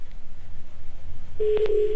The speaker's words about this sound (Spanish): Recuerden que es el número a quien le vamos a marcar. ¿Ya está sonando?